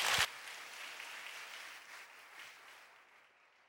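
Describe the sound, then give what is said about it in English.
An audience applauds to welcome a speaker to the platform. Faint clapping opens with a brief louder burst, then settles into a steady patter that gradually fades away. “Would you all put your hands together as we welcome Dr. Roden?”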